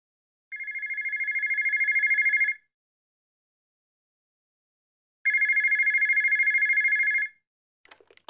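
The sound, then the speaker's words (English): A bank's desk telephone rings with a bright, trilling electronic bell: two long bursts separated by a silent pause, followed by a brief faint clatter at the end. “The phone.”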